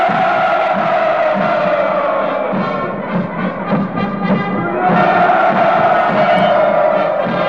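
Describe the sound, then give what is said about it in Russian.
Massed 'hurrah' shouts from the crowd at the 7 November 1977 Red Square parade marking the 60th anniversary of the October Revolution: a loud, sustained, drawn-out roar of many voices that dips briefly midway, then swells again. “7 ноября на календаре, и то, что вы сейчас слышали, это парад на Красной площади 7 ноября 1977”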